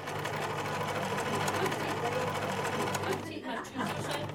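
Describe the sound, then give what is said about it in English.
Sewing machine running steadily with a low mechanical hum at a pensioners' afternoon knitting and sewing group, quiet under people talking nearby. “I'm just going to go upstairs and meet a bunch of pensioners who get together most afternoons for a social and a bit of knitting and sewing.”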